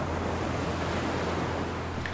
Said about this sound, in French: J'adore voir ces vagues qui frappent les bords de plage.